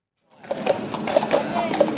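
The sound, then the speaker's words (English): Police horses' hooves clip-clopping along a street during a state visit procession: a steady, dense clatter of many hooves that starts abruptly and continues at an even loudness. “The police horses make their way down the Mall towards Buckingham Palace”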